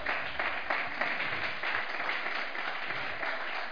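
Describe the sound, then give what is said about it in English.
A church audience applauds with a steady, dense wash of many hands clapping that stays at an even level for several seconds. “Now you may take your seats and put your hands together for Jesus Christ. Amen. Come on, you can do better than that.”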